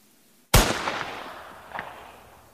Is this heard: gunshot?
yes